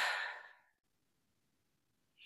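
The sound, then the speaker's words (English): A deep breath taken during a guided self-trust exercise: a breathy rush of air that fades away into near silence, followed by the brief onset of another breath at the very end. “put your hand over your heart. Take a deep breath in.”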